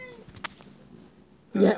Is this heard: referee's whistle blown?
no